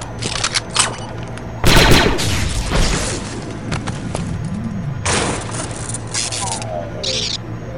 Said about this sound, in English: You shot my cam! You shot it!